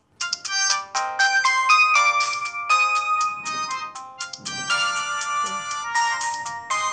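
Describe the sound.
A phone ringtone plays as a call is placed, a bright, steady electronic melody of quick high notes that repeats without pause for the whole clip.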